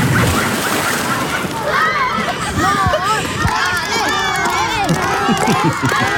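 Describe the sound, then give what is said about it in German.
A crowd of schoolchildren shouts and cheers from the edge of a swimming pool for a swimmer finishing a 25-metre swim. High excited voices overlap continuously over splashing, sloshing water. “Und das Tolle war, es hat wirklich Spaß gemacht, weil am Ende stand ein ganzer Schulhort mit am Beckenrand, um dich anzufeuern.”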